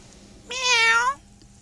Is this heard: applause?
no